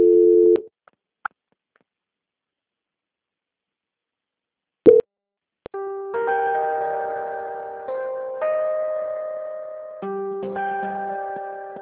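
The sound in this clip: Telephone line tones during a call transfer: a short beep and a couple of faint clicks, a brief burst, then a long run of steady electronic tones that shift pitch a few times, with no voices.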